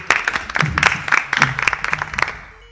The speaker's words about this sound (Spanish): Venga, un aplauso, un aplauso.